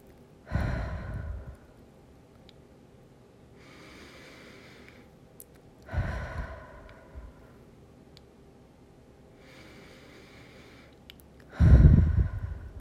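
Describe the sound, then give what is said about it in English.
Three deep breaths taken slowly: each is a loud, breathy rush about five seconds apart, with fainter airy breathing between them. “Now take three more deep breaths and start to come back into your body.”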